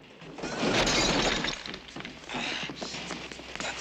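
Shop displays and glass smash during a struggle. A loud crashing shatter is followed by scattered clattering and tinkling debris.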